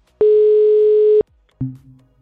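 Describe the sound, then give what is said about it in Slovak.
A telephone disconnect tone as a call is cut off: one loud, steady, high beep lasting about a second, then after a short gap a lower, fainter buzzing tone that fades out. “Aha, tak rovno nás vypli.”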